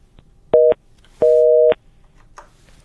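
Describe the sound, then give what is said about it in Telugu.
A telephone busy signal plays on a call line that fails to connect. There are two steady electronic beeps, the first short and the second roughly twice as long, with quiet gaps and no talking. “So calls వస్తున్నాయి, but I think technical issue వల్ల line connect అవ్వట్లేదు.”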